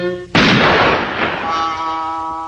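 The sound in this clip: A cartoon gun fires a single loud shot, a sharp sudden blast that decays into a long rumbling tail, with steady sustained tones heard before the shot and again as it fades.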